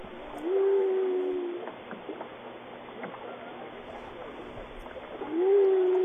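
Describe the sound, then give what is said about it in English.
Whale calls off Albany: two long tonal moans that rise and then hold steady, one near the start and one at the end, over a constant wash of water noise. “that's a whale.”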